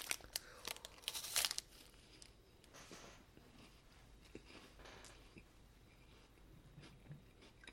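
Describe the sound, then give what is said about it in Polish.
Crinkling plastic wrapper of a Grześki wafer bar being opened, a burst of sharp crackles early on, then softer, fainter rustling and crumpling that trails off, with no talk. “Także widzicie, człowiek czasami się namęczy przy otwieraniu głupiego Grześka.”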